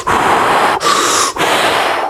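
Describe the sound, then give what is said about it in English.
Rapid, deep human breathing comes as three loud, long breaths, each a rough, airy hiss, in quick succession with brief gaps between them and no other sound. “what if I just like breathe as deeply as I can really fast? Just like.”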